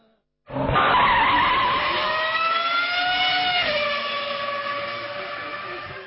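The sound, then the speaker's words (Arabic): Tires screeching as racing cars skid in a mobile racing video game. One loud, continuous squeal starts abruptly and holds for about five seconds, dipping slightly in pitch midway and easing a little toward the end. “لو غاوي سباق ولو بتحب التحدي يلا حمل لعبة نيد فور سبيد على تليفونك المحمول”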